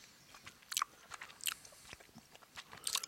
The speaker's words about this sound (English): The yumberry tastes like nothing. No, I'm back on the yumberry again. It's weird.